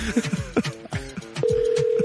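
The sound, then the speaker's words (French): A telephone number being dialed: a quick run of mixed short tones and clicks, then a steady single-pitched telephone tone holds from midway to the end. “ça compose pas vite, la personne? C'est qui compose ça?”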